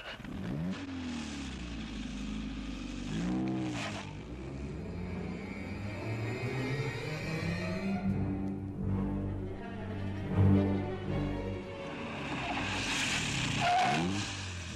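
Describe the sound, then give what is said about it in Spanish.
Car engine starting and pulling away as a staged radio drama effect for a drive to Lake Kikobi: repeated revs that rise and fall in pitch, then a sustained, strained engine note building to a louder surge near the end. “Edgar se puso ante el volante y salieron hacia el lago Kikobi.”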